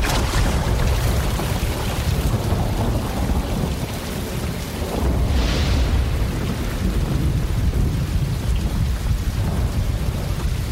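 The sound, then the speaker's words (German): Thunder from a thunderstorm rumbles loudly and continuously for about eleven seconds over steady heavy rain, with no voices. “aber ich habe schon wieder ein Problem mit diesem blöden Gewitter.”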